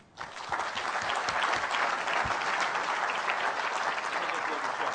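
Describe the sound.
A live audience applauds as two company guests are welcomed onto the stage at an industry event. Loud clapping starts abruptly after a brief quiet moment and stays dense and steady for several seconds.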